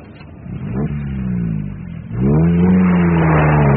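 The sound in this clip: A car accelerates along a road, its engine drone swelling and climbing in pitch, dipping briefly at a gear change, then surging louder and higher again as it pulls away.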